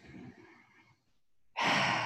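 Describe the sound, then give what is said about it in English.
Deep breathing into the lungs during a guided meditation: a soft, fading breath, a short pause, then a strong, full, sighing exhale that is loud and airy, with no talk. “And our lungs, breathe into our lungs, which are really in your back.”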